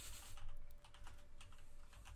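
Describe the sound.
Rapid typing on a computer keyboard, many quick light key clicks in a steady, uneven patter that runs throughout over a faint, constant tone.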